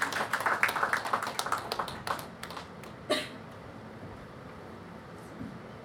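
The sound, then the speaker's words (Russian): Audience applause: a dense burst of clapping that thins out and stops after about two seconds, followed by a single soft thump and near quiet. “Давайте ему похлопаем.”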